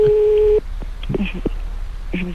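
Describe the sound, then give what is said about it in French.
A telephone ringing on a call-in line: one steady mid-pitched ring tone lasting about half a second, then people talking. “Ça sonne chez moi, ça sonne chez moi.”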